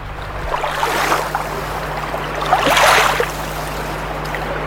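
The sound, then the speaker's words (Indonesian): Footsteps wade through water, making sloshing surges over a steady watery hiss and a low hum. Two louder swells of splashing stand out. “Mari, tong jalan di air itu.”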